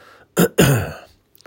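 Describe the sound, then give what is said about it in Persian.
A person with asthma and troubled lungs gives two rough coughs: a short burst, then a longer, throaty one that trails off into quiet, with no speech around them. “ببخشید بعضی فصل ها هست، این ریه من خیلی اذیت میشه، گفتم قبلا آسم داشتم، این که همیشه ما بین صحبتم سرفه میکنم”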